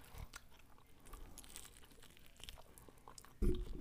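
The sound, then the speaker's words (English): Quiet chewing and biting on chicken wings, soft wet crunches repeating irregularly, with one louder bite near the end. “This tastes really good. Right. Yeah. Because I feel like I haven't had a chicken wing in so long.”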